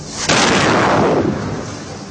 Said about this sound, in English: A small missile shell is launched on the target, supposedly to give people a chance to evacuate.